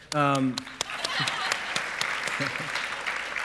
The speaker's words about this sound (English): you should see how the sermon goes before you clap